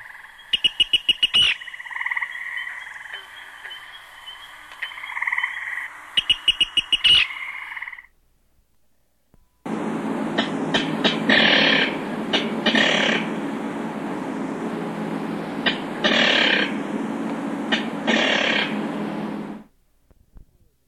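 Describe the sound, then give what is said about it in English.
Kikir calls of two rail species, first a Virginia Rail and then a King Rail. The first is a fairly musical run of rapid repeated notes. After a short silence comes a longer, harsher, lower series of quick rhythmic calls. “Now let's examine their kikir calls. Again, first Virginia, then King.”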